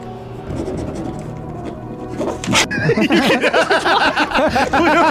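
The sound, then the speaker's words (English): Pens scratching furiously on paper as two people write at once: rapid, rough scribbling that grows louder and denser partway through, with quick strokes repeating to the end. “I hope the microphone picked up the sound. I was writing furiously. We both were.”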